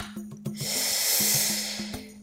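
Forceful belly breathing, with air pushed in and out in a sustained breathy rush that swells and fades over about two seconds, alongside a faint low hum and a few soft knocks.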